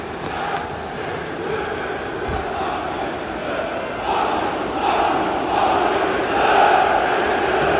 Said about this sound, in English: The locals are welcoming us with chants of fuck, fuck, fuck you, Manchester.